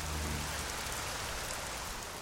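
Steady rain falls in a city, a constant even hiss that holds at the same level throughout, with a low hum under it at the start.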